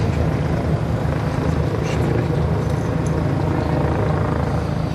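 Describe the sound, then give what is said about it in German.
Deep, steady rotor drone from a police helicopter circling over a large park in central Berlin on an early Sunday afternoon. The drone is loud, continuous and unbroken, with a low throbbing beneath a broad rushing wash and no distinct voices. “Über dem Berliner Tiergarten, dem großen Park im Herzen der Hauptstadt, kreist am frühen Sonntagnachmittag noch immer der Polizeihubschrauber.”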